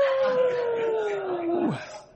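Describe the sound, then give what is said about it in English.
A human voice imitates a dog's howl, holding one long sustained tone that glides slowly downward before dropping off abruptly at the end. “the dog put one paw on the sick dog and began to howl”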